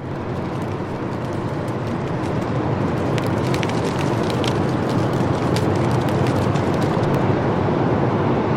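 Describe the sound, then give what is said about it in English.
Water from the South Platte River rushes down a weir in a downtown Denver park, a loud, dense and unbroken roar that holds steady throughout with no pauses. “What you're hearing is the weir. So it's water from the South Platte River coming rushing down the”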